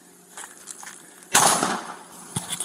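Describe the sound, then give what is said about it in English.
Gunshots ring out during a police shooting: a loud bang with a lingering crackling decay, then a shorter sharp crack later, over a steady background hiss. “Shots fired.”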